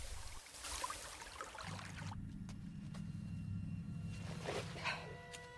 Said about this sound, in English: The rising water laps around the group's fire and extinguishes it.